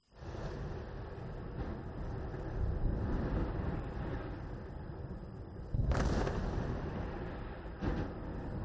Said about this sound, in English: In the besieged strip, sounds of bombardment are followed by screams of mothers losing their kids,